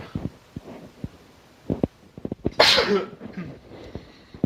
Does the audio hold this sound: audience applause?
no